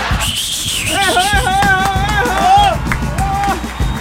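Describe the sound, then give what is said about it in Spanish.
Cheering and clapping from a studio audience at the opening of a Spanish-language radio show, with whooping, shouting voices rising over a dense, loud crowd roar throughout. “¡Aplausen, aplausen, aplausen! ¡Aplausen!”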